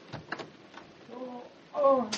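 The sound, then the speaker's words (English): A door being unlocked at a house entrance: a few faint clicks and knocks, then a louder scraping burst near the end. “Here, Cato, hold this weapon while I unlock the door.”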